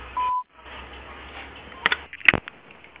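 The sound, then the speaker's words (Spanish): A single steady, mid-pitched voicemail beep sounds over a phone line for about a third of a second. Faint line hiss and a few sharp clicks follow, with no talking. “Deja tu mensaje después del tono.”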